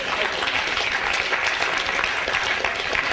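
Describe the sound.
Audience applause for a prize winner announced during a lecture, with dense, steady clapping from a crowd filling the whole stretch at an even, fairly loud level.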